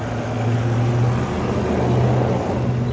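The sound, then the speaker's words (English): A truck passing outside makes a steady low engine drone with a broad, even rumbling roar that holds throughout, with no voices. “Pardon the noise of the truck there.”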